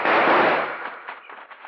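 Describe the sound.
Gunfire during a stagecoach holdup: a loud, rough burst of noise that fades over half a second, followed by a few fainter crackling pops.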